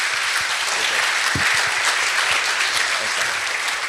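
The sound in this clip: An audience breaks into applause to welcome a speaker, with dense, steady clapping at an even loudness throughout.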